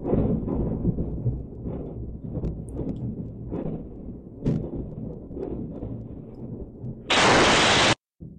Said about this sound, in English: A missile strike onto a Ukrainian location, but we see nothing of it.